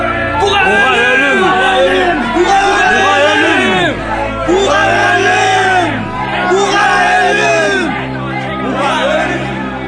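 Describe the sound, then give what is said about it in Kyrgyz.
An angry crowd shouting as it follows a prisoner being carried by soldiers to a fortress, many overlapping voices yelling and bellowing in loud, wavering cries that continue throughout. “Антени аны эрчиген көпчүлүк кыйкырып жатты.”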